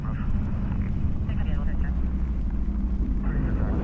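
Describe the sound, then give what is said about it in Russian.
A police car driven by a grey-haired officer travels along an empty road, its engine a steady low rumbling drone running beneath a voice talking. “По дороге в полном одиночестве едет седовласый полицейский.”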